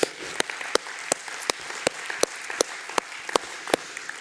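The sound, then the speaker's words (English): A church audience applauds, with a steady bed of clapping punctuated by strong, evenly spaced claps that keep a regular beat for about four seconds. “Why don't you give yourselves a hand?”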